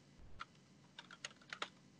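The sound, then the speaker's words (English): Keystrokes on a computer keyboard: a few faint, soft clicks in an irregular rhythm, some landing in quick pairs, with no voices. “Let me type that down so I don't forget that.”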